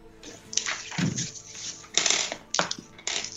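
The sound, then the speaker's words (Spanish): Three small dice are thrown and roll, giving quiet bursts of sharp clattering and rattling that stop and start several times. “yo iba a aventar unos tres daditos”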